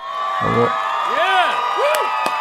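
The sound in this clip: A studio audience cheering sound effect: a sustained crowd roar with a few rising-and-falling whoops cutting through it at steady loudness.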